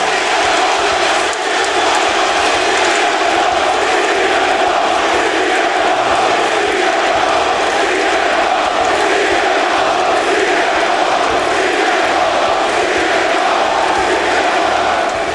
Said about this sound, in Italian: questo è il pubblico di Chicago. Sentiamo e poi il ritorno di CM Punk.